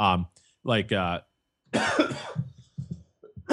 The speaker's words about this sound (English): excuse me, that was really unprofessional. I just take a note on that. No coughing. At least it wasn't into the mic.